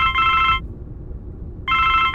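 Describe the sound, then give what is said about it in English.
A mobile phone rings inside a quiet car: two bursts of a bright, warbling electronic ringtone separated by about a second of silence, over a steady low rumble. “Then her phone rang.”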